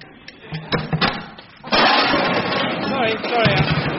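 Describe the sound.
Bicycle being pushed into a cupboard too small for it: a few knocking, clattering bumps, then a voice speaking.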